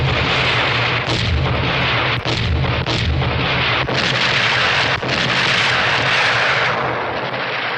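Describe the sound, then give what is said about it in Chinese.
Heavy artillery and gunfire in a battle against Japanese troops at a village: a dense, continuous loud roar of shooting, broken by a few sharper blasts. “停止射击。”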